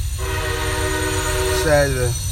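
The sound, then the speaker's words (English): A passing train sounds its horn in one long, steady, loud blast of layered tones that drops in pitch near the end. “Sorry about the train, y'all. Like I said, it's gonna be a train every now and then.”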